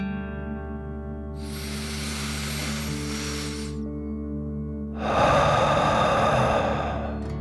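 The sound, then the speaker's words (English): A deep breath in, then a slow breath out through the mouth, taken as a kids' relaxation exercise. Two long, soft airy rushes separated by a short pause; the exhale is a bit louder. A quiet, steady music bed plays underneath throughout. “Deep breath. In and out.”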